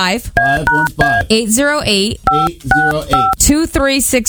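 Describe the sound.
A phone number is dialed on a telephone keypad, producing a string of short, steady electronic beeps mixed with talking voices.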